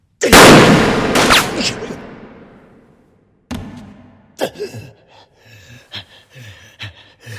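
A gunshot that grazes a person bursts out loudly and rings away in a long fading decay, then a few sharper bangs follow, mixed with short gasping breaths.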